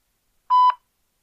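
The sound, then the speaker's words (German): A single electronic beep from a telephone speaking clock time signal: one steady, clear mid-pitched tone of about a quarter second, sounding alone against silence. “Es wird mit dem Summerton 22 Uhr, 26 Minuten und 30 Sekunden.”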